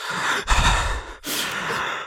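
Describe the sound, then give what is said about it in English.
A voice imitates heavy breathing through a door: a few loud, rough, sigh-like breaths with a brief pause between them. “You sounded like that guy that was breathing through your door.”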